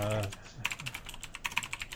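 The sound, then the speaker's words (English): Very loud typing on a computer keyboard: many quick, uneven clacks and clunks in a rapid run, with a brief voiced sound at the very start. “Actually, I'm going to type on the world's loudest keyboard. So, sorry. Okay. Clunk, clunk, clunk, clunk.”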